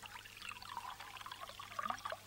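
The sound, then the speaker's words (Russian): Red wine is poured into a glass at a dining table, giving a faint, steady trickle with light splashing and small bubbly ticks over about two seconds. “Да вот, красненького. Домработница наливает ей красненького.”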